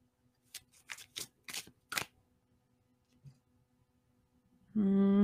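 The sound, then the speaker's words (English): Everyday Witch Tarot cards being shuffled and pulled, heard as a quick series of crisp snaps and flicks, then a pause and a faint rustle before a voice starts. “So typically I do three to four cards, um, but I'm always willing to pull more if we need clarifying. Uh, we are using the Everyday Witch Tarot”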